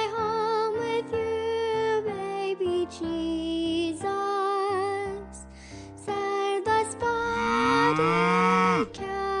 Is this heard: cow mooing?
yes